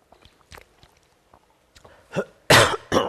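A person clears their throat in a rough, breathy series of bursts, faint and scattered at first, then a few loud, harsh rasps near the end, with no speech during it.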